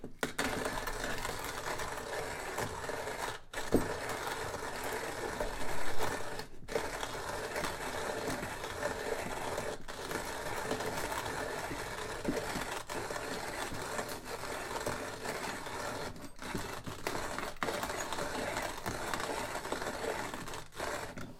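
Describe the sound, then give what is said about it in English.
Coffee grinder crushing two teaspoons of coffee beans, worked by hand: a continuous rough, crunching, ratcheting grind runs throughout, broken by a few brief pauses, fairly faint and steady. “2 teaspoons of coffee beans to the grinder, and I will start to grind.”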